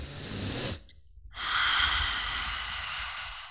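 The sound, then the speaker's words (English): A deep breath, drawn in slowly and steadily, then a brief pause and a longer, breathy exhale that trails on softly to the end. “Take a deep breath, grab hold of your switch.”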